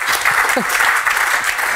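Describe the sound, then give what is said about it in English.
A round of applause from an audience honoring a footballer: dense, continuous clapping held at an even level throughout. “I think that deserves a round of applause.”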